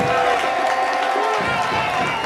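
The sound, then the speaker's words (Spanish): A stadium crowd at a football match applauds a player, producing a dense, continuous roar of clapping and cheering, with a commentator talking over it. “Los aplausos para el 26”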